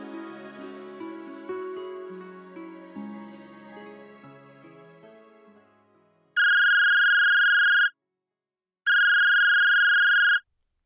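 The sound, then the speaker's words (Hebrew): A phone rings in two steady electronic bursts with a short gap between them, after a few fading melodic notes at the start. “הטלפון של ענת צלצל בזמן הגרוע ביותר.”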